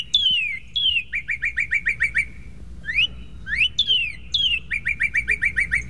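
Cardinal song: loud, clear whistles that slur downward, each followed by a rapid run of short repeated notes, with a few rising slurred notes in the middle. The phrases repeat over a faint low background rumble.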